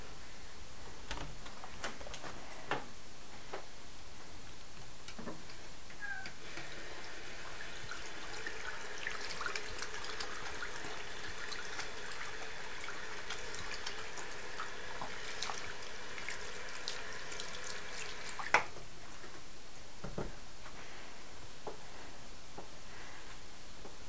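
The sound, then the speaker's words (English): Running sink tap water for hand washing, a faint steady trickle that lasts about twelve seconds before stopping, with a few soft clicks and knocks around it. “Okay, Mommy's going to wash her hands.”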